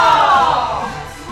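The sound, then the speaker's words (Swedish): A crowd shouts a single loud, sustained hurrah in unison for a colleague retiring after 30 years at a talking newspaper. The cheer starts strong and gradually fades. “Ska vi ge henne stort hurra? Är ni med? Då kör vi! Hurra!”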